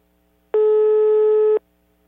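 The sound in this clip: A single steady telephone ringing tone sounds as a call is placed, one plain mid-pitched beep lasting about a second, alone over a faint low hum.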